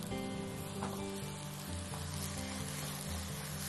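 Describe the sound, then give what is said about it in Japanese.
Steady sizzling of eggplant and vegetarian taco filling stir-frying in a pan over medium-low heat: a continuous crackling hiss at an even level, with no voices. “この時火は中火から弱火にして焦げないように気をつけて炒めてください。”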